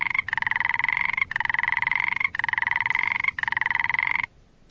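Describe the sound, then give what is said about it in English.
Frogs croak in four long, buzzing calls of about a second each, evenly spaced and loud, before the sound cuts off into near silence. “Then we have the two frogs croaking.”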